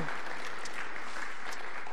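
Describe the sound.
Applause from the audience at a 6 p.m. church service welcomes a guest speaker to the front: steady, dense clapping with no voices over it.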